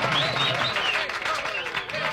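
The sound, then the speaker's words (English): An audience applauds a peer counselor of the year from Franklin County with a continuous, full round of clapping, and a few voices call out over it. “So let's give Barbara Clark a big round of applause.”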